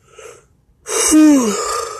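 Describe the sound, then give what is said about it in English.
A person yawns: a faint breath comes first, then a loud, long open-mouthed exhale carrying a voiced tone that slides downward in pitch. “There's another yawn.”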